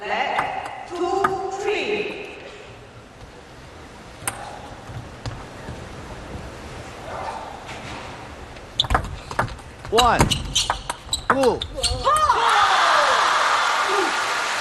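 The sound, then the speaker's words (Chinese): Table tennis ball serve and bounces in a match: a few sharp, hollow clicks come in a quick cluster toward the end, heard under commentary and crowd noise. “现在是左腾腾发球”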